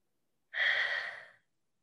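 A slow breath out during a guided breathing exercise: one airy whoosh that begins abruptly, holds for about a second, and fades out, alone in silence.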